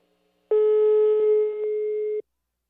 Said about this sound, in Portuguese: Eu vou ligar mais uma pegadinha, vamos ver se pega, hã?